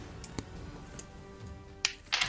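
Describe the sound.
A die dropped onto the floor during a tabletop role-playing game of Das Schwarze Auge: a few faint, sharp little clacks, with two brighter hits close together near the end.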